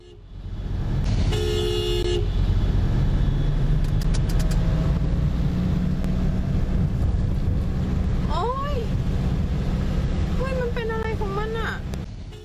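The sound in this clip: Pickup truck honking and speeding through a flooded road, throwing water onto a motorcyclist: one sustained horn blast near the start, then a steady loud rush of water and wind, with voices breaking in toward the end.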